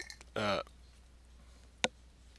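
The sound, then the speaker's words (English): A short, throaty burp after someone drinks, a single quick croak that is fairly faint, with a small click soon after. “I don't know if that burp came across on radio or not, but somebody just enjoyed their drink.”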